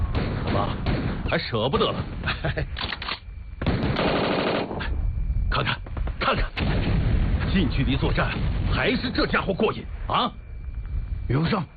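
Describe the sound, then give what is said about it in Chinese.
A Thompson submachine gun fires in rapid automatic bursts at close quarters, mixed with other gunfire and heavy background noise while people talk over it. “手枪不过瘾，给我一支汤姆逊。”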